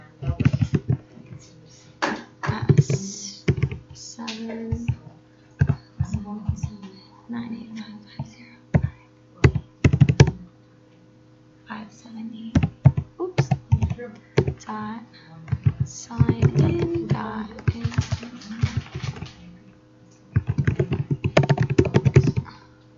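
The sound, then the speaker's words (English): Fingers type on a computer keyboard while a class is being set up, with bursts of rapid plastic key clicks separated by short pauses and a faint low hum underneath. “All right, here. I'll just be able to type it from here.”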